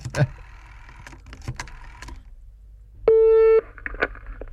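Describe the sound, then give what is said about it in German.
A desk telephone dials a number, with several clicking key presses, then a single loud, steady buzzing ring tone lasting about half a second, followed by a few more faint clicks. “ich habe ja direkt auch den Telefonapparat hier vor mir stehen. Und dann haben wir schon vorbereitet eine Nummer rausgesucht. Und die wähle ich jetzt einfach mal an.”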